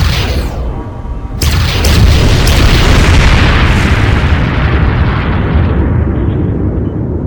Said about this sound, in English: Railguns armed. Firing.